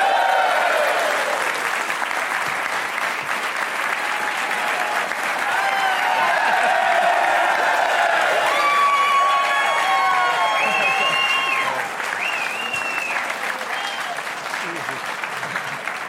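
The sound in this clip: A studio audience gives a big round of applause to welcome a guest onto a show; loud, dense clapping stays steady and unbroken for about sixteen seconds before easing slightly near the end.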